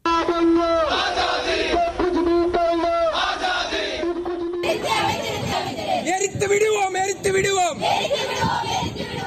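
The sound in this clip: Crowd of protesters chanting slogans against India's citizenship law, many voices shouting together in a loud, continuous, rhythmic chant that carries throughout.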